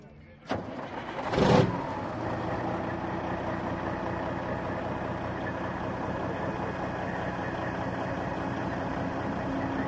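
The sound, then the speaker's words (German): A vintage Kenworth show truck from the USA, with a 500 hp, 12.7 litre engine, starts at a truck meet: a sharp crank, then a brief louder surge, before it settles into a steady, rumbling idle that carries on evenly. “Was haben wir denn jetzt hier hinter uns stehen? Das ist ein Kenworth aus den USA, hat 500 PS, 12,7 Liter und Oldtimer,”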